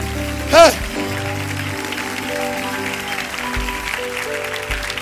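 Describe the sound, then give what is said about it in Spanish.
An audience claps during a church service, a rain-like patter of hands spread beneath sustained keyboard-like tones, with a short vocal shout near the start. “Haga algo, aplauda al Señor haga algo, gloria a ¡Eh!”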